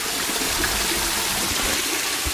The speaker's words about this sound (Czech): Tady dovnitř se nedosune, ale aspoň ten krásný šum mlýnského náhonu. Ano, tady to je.